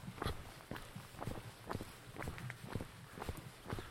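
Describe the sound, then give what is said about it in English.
Soft footsteps on a coastal path near a caravan park, a steady, even walking rhythm of many light steps with a faint outdoor background and no talking. “I'm just going to walk past it, keep walking and walk past it.”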